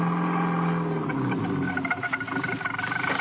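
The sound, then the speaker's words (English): A car engine rumbles steadily as the vehicle crawls slowly through thick fog, a continuous low drone with busy mid-range texture that grows slightly rougher and more pulsing toward the end, with no voices. “He was driving more by instinct than anything else.”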